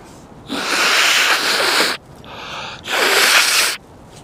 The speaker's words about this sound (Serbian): Dobar šmrk.